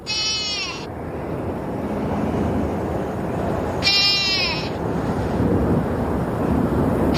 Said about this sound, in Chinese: 天亮后，岩羊幼崽凄厉的叫声从山间传来。